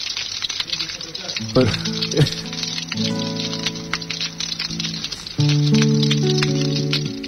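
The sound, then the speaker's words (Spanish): Rain falling in a steady, fine patter that runs through the whole clip, largely mixed under guitar-like music notes. “Ahí está lloviendo. Mirá, está lloviendo.”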